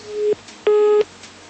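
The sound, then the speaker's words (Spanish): Busy tone after a dropped phone call: two steady electronic beeps at the same mid-low pitch, separated by a short silent gap, over faint line hiss. “Creo que se cayó la llamada.”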